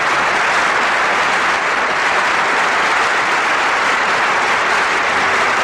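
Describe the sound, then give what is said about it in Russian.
An audience in a concert hall applauds before a song begins, a loud, dense and unbroken roar of clapping that holds steady throughout. “И аплодисменты в зале обычно звучат уже перед началом исполнения.”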